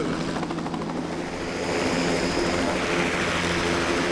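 A helicopter flying overhead, the aircraft carrying gas leak detection gear: a loud, steady rotor-and-engine drone with a dense, rushing roar that swells slightly partway through and holds without pause, with no voices.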